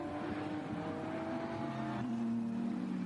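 A BMW race car accelerates toward the Vidal chicane on a race track, its engine making a sustained, fairly faint whine whose tone steps down once partway through.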